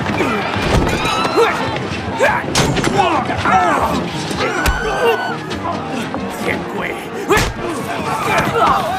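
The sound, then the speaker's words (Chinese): Bar fight with crashing and blows: many sharp thuds, slams and smashing impacts under constant shouting voices and a noisy crowd. “有人在酒吧打架，快救救命！”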